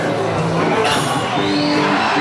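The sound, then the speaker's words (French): An impatient, rain-soaked stadium crowd waiting for a concert makes a loud, continuous roar of cheering, scattered shouts and whoops throughout. “Dans le stade, le public est trempé et commence à s'impatienter.”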